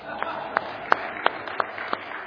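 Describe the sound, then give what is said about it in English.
Audience clapping at a church gathering, a round of applause for sports coaches, heard as about six sharp, evenly spaced claps in a steady rhythm, fairly light in volume. “All right, let's give them a round of applause.”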